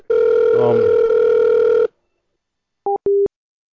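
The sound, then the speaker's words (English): A telephone line tone plays for a caller on hold: a steady, loud buzzing tone holds for almost two seconds, then stops. After a short silence, two brief beeps follow. “Just please hold, there might be a slight ring.”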